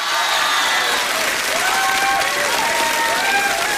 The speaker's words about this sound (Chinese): 感谢大家热烈的掌声啊！